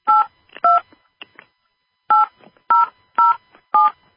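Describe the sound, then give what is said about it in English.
Telephone keypad DTMF tones as a caller enters a subscriber PIN and pound sign on a conference line: a few quick beeps, then four loud, evenly spaced tones. “Please enter your subscriber PIN followed by the pound sign.”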